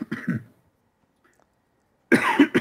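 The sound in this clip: Harsh coughing from a tickle in the throat: a short throaty burst, then silence, then a louder, longer bout of coughing at the end.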